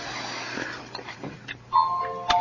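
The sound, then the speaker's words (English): Cuckoo clock chiming amid a room full of clocks: faint clicks give way to clear, ringing tonal notes that hold steady, then a final bright strike near the end. “All these clocks. There goes my cuckoo clock.”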